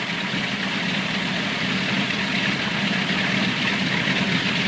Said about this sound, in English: The plane turns around, propellers spinning, and taxis across the tarmac.